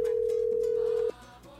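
A telephone dial tone sounds as a call is placed to a listener: one steady, loud, mid-pitched tone that cuts off abruptly after about a second, leaving only faint low line noise.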